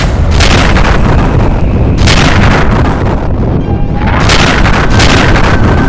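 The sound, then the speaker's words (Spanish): Loud, roaring blasts from a sci-fi proton ray fired at a gate, heavy noisy bursts that swell and surge several times, with a thin whining tone that rises in pitch near the end. “¡Activa el rayo de protones! ¡Dispara al portón!”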